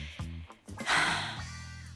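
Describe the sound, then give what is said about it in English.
A single deep, airy breath rushes out for about half a second, set between brief low voiced sounds. “Breath.”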